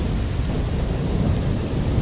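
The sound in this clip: A thunderstorm over a valley, with heavy rain hissing steadily and a continuous low rumble of thunder underneath throughout.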